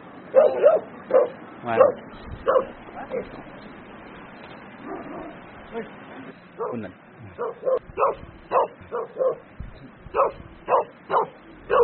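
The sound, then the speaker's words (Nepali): Dogs bark, yip and whimper as they chase each other in Sikkim, near a yak herders' shelter. Many sharp, high barks come in quick bursts, with a quieter stretch in the middle before the barking picks up again. “खेदा यार हाम्रो कुकुरलाई त इन्डियाको कुकुरले सिक्किमको कुकुरले नेपालको कुकुर खेदाइदियो”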